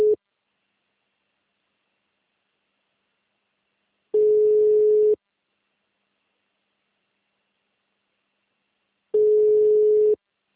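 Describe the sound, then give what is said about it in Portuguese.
A ringback tone plays as a phone call rings through: one steady mid-pitched burst is cut off at the start, then two more full bursts of about a second each follow, with long stretches of silence between. “Estou ligando aqui para ela.”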